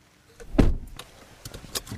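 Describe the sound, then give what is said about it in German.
Car sounds from a red Opel Corsa: one solid door thump, followed by softer mechanical clicks and a brief whirring, fairly quiet and without talking. “Mit ihrem roten Opel Corsa holt mich Agnes Brasseel ab.”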